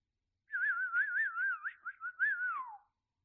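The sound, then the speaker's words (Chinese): A person whistles one continuous warbling phrase, its pitch wavering up and down in quick trills before gliding downward at the end, clear and alone. “主人的口哨声就像是快感的开关，”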